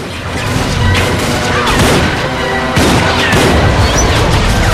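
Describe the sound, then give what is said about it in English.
A large lorry smashes through closed garage doors as a gang opens fire. Loud crashing impacts and heavy booming bangs pile up in a dense, continuous barrage, with a fresh burst of crashes partway through. “Suddenly, a large lorry bursts out, crashing through closed doors. The gang dive out of the way, then start firing at it.”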